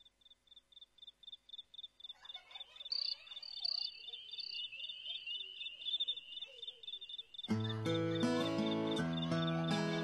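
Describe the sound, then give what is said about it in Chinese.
Crickets chirp in fast, even, high-pitched pulses in a song intro blending hip-hop and folk, with softer warbling calls weaving in before the music enters loudly near the end. “甚至在前奏当中加入了非常清新的蟋蟀的声音，给人感觉非常特别。”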